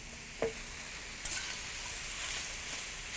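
Stir fry sizzles in a pan as snow peas are added: a steady, bright frying hiss with a short clatter early on, then a louder surge of sizzling that holds until the end.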